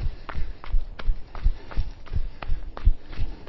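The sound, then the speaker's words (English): Footsteps of someone jogging up a hill thud in a steady, even rhythm, many soft impacts repeating at a brisk pace. “You're wondering what's in store as I jog up the first hill.”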